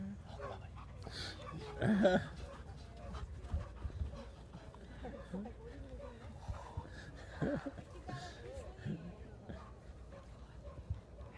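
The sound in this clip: A dog in engagement training pants and whimpers, letting out a few barks and yips, while a handler and other people talk over it.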